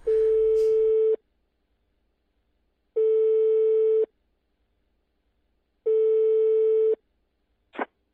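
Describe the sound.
Telephone ringback tone on an outgoing call: three steady, mid-pitched tones of about a second each, evenly spaced by short silences, followed by a brief faint blip at the end.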